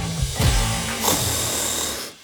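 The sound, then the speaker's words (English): A person snoring: a couple of harsh, rasping snores, loud and alone. “Is snoring keeping your house awake?”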